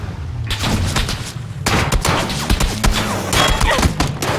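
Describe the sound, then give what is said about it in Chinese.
M16 rifle fire in a shooting video game: several sharp, loud bursts of rapid shots crack over a dense, noisy background, separated by short pauses. “这 M16一枪把我就爆头了”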